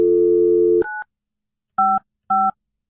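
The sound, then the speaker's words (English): A touch-tone telephone dials an international number. A steady dial tone cuts off, then three short, loud keypad beeps follow with even gaps between them, and no one speaks. “Well, to dial internationally, you need a couple more.”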